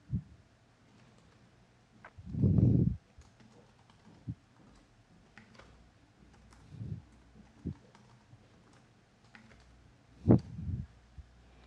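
Keyboard keys are tapped while an account name and password for remote login are entered, with sparse, irregular faint clicks and a few louder bursts of quick keystrokes.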